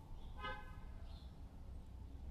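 A single short car horn toot sounds on a street, sharp and bright against a steady bed of low traffic rumble that continues after it.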